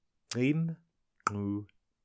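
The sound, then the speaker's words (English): Two Khoikhoi click consonants made at the front of the mouth, demonstrated by a voice. Each is a sharp, crisp click that leads straight into a short voiced syllable, with a brief pause between the pair. “demonstrates four click sounds, which are created at the front of the mouth and can all be demonstrated in the sentence”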